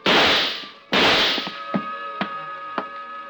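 Gunshots fired in a dark room: two loud, sharp cracks with short decays, followed by a few faint knocks and clicks.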